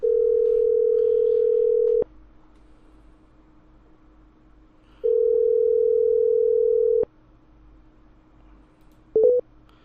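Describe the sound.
Phone ringback tone of an unanswered call: two long, steady, mid-pitched tones of about two seconds each, separated by a pause of about three seconds, then a brief double blip near the end.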